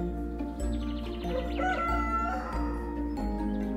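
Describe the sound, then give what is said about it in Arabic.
A rooster crows, one drawn-out cock-a-doodle-doo rising out of a steady low background hum. “استيقظ جحا على صوت صياح الديك”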